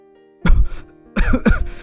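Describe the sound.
A woman coughs in a choking fit as she nearly spits out a mouthful of rice. A short harsh cough comes first, then after a pause a longer, rough, throaty burst with a couple of pulses.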